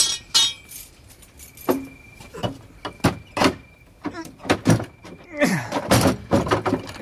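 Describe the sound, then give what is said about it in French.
A locked door on a navy vessel being lifted off its hinges, heard as many irregular metallic clanks, knocks and rattling clinks that come in scattered bursts and grow busier toward the end. “Il s'est fait poser une serrure au coriace. Tant pis pour lui. Je dégonde.”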